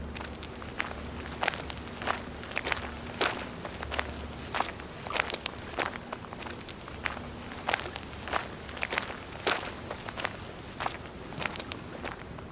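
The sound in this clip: Footsteps walking outdoors on an outing near a lake, a long run of steady, even footfalls keeping a regular walking rhythm throughout, each step a crisp, moderately loud crunch.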